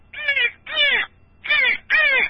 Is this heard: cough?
no